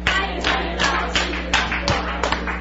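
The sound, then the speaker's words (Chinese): Audience clapping in a steady, rhythmic unison beat to welcome a lecturer onto the stage, with sharp evenly spaced claps over a constant low electrical hum. “所以接下来我们就一起来拍手，然后欢迎我们今天的讲师。”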